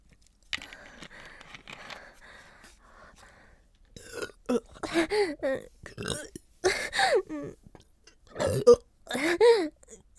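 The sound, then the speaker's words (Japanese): Burping after drinking a carbonated drink: a rough, throaty belch comes early, followed by a series of short, louder voiced bursts with wavering pitch. “恥ずかしい、ゲップ出ちゃった”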